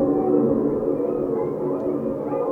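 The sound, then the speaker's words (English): Layered coyote howls blended with grackle calls form a dense, continuous wailing mass of overlapping tones, steady in loudness from start to end with no separate calls standing out. “So if I combine these coyote sounds with the grackles,”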